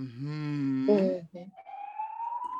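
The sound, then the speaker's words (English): A police siren gives a single rising wail that climbs steadily in pitch during the second half, after a stretch of other tonal sounds. “Ooh, they're coming for you. Oh, that's the siren.”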